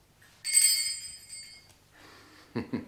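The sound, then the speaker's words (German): A small handbell rung in a wealthy home to summon a servant gives one bright, high ringing tone that fades over about a second, followed by a couple of soft thumps. “Das, sehen Sie, ist eine der kleinen Annehmlichkeiten des Reichtums. Man klingelt und dann ereignet sich was.”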